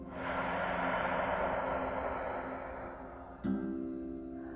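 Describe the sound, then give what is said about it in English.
Slow deep breath during a guided breathing exercise, heard as a long, steady rush of airy noise that ends with a sharp click. “And again, inhale and exhale.”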